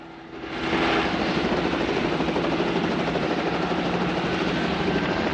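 A helicopter in flight with a pilot and co-pilot on board: a dense, steady whirring rotor and engine drone that swells in the first second, then holds a constant loud level.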